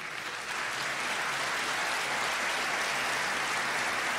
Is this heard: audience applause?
yes